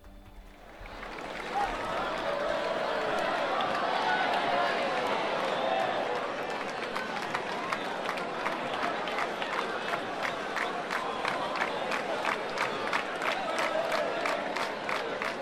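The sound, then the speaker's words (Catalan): A lively crowd murmurs and cheers in the square at the Jocs d'Esplà during the Sant Joan festival in Ciutadella. A steady, regular tapping rhythm emerges over the crowd noise in the second half. “Molt pendents de la convidada per part del caixer senyor als Jocs d'Esplà, les festes de Sant Joan de Ciutadella. Anem a connectar de nou so ambient ara mateix a Ciutadella.”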